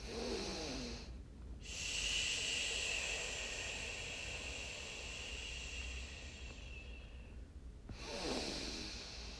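A long, audible exhale through the mouth during a breathing exercise makes a steady, airy hiss that lasts about six seconds and stays soft throughout. Shorter breaths come just before and after it.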